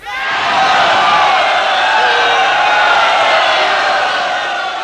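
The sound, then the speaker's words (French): Soldiers cheer their general, Bonaparte, in a loud massed roar of voices that swells quickly and holds steady for several seconds. “Les soldats acclament leur général.”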